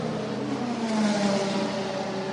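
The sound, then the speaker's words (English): A race car, the number 45 sports car on fresh Michelin tires, accelerates out of pit lane, its engine a loud, steady, harmonic drone that holds throughout. “As off and away, Trent Hindman takes the car.”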